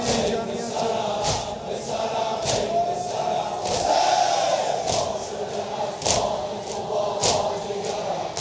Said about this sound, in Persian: این صدای این جمعیت،